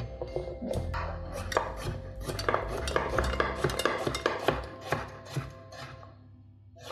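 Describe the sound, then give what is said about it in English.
A knife chops vegetables in many irregular knocks and clicks against a board, mixed with scraping and the clink of kitchen utensils, fading toward the end. “I'm trying to not chop up my fingers in the process.”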